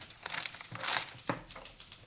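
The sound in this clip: Drawing a map on paper, showing the way to a road: faint scratching and rustling in a few quick strokes, with no talk.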